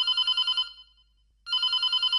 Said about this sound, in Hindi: आज फोन आना शुरू हो गए हैं सर, पहली फोन कॉल लेते हैं।